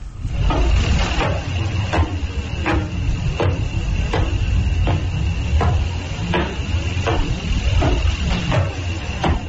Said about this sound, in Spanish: Vamos a escuchar ese sonido de ese pulsar, a ver cómo suena.